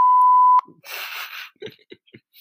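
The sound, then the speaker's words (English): A single steady, high-pitched bleep sound effect from a soundboard lasts about half a second and cuts off abruptly. It is followed by a soft burst of hiss and a few faint short sounds. “I found a bleeping sound effect. It's just a soundboard I have.”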